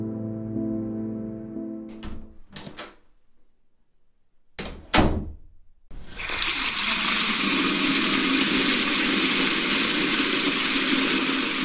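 Water bursts from a tap to wash dirty feet, a loud, steady rushing stream. Before it comes a low hum and a few clicks and thuds.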